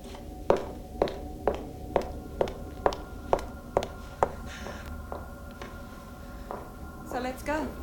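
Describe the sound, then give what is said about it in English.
Footsteps crossing toward a door: about nine even, crisp steps at a steady walking pace, then a few fainter, slower ones, with a brief voice sounding at the end. “Juliet, dressed, crosses to the door.”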